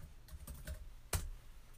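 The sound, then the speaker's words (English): Typing on a computer keyboard: a few soft, scattered key clicks, with one sharper, louder strike in the middle, all quite faint and with no voices. “So stick with me here as I type”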